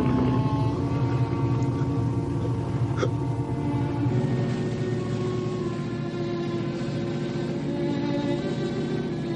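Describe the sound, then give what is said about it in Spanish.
Motorboat engine running in a 1961 World War II action film: a steady, droning hum with a low harmonic tone, constant and moderately loud, with no voices. “María conduce la motora.”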